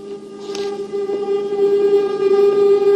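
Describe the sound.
A train passing through a railway station, heard as a sustained, steady tonal drone with strong even harmonics over a low rumble that grows slightly louder toward the end.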